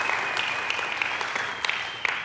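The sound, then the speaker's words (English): A church audience claps in praise during a morning service, a dense, steady wash of many hands applauding at an even loudness from start to finish. “Can you give the Lord a hand clap of praise if you know him this morning?”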